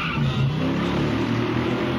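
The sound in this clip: A car engine revs hard as the car accelerates in first gear within a song, a loud, continuous low roar that holds steady for the whole stretch with no talking.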